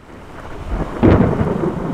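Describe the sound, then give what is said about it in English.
Thunder rumbles during a thunderstorm in northern Syria, recorded while driving through it. A low rumble swells into a loud peak and then rolls on heavily, with rain hissing underneath. “Wow, it's a huge flash of lightning. We're driving through the middle of a thunderstorm in northern Syria”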